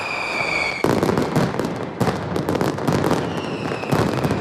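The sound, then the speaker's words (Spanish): Mascletà firecracker barrage by Pirotecnia Mediterráneo in Plaza de Luceros during the San Juan bonfire festival: a dense, relentless crackle of loud bangs with sharper bursts punching through the roar. “Y a las 2 de esta tarde se ha disparado ya la primera mascleta en la emblemática Plaza de”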